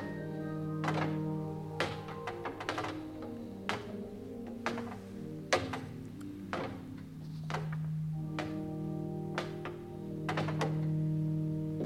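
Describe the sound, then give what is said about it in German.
Footsteps come up a spiral staircase as many irregular hollow thuds and taps over a low, sustained droning tone. “Gleich muss er die Wendeltreppe heraufkommen. Ich glaube, ich höre ihn. Ja, das sind Schritte.”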